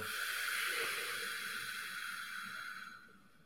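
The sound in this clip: A deep, slow breath out during a guided breathing exercise: a soft, airy hiss that is quiet and steady, then fades away at the end.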